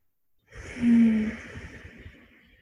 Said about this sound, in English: Taking just a few more deep breaths here.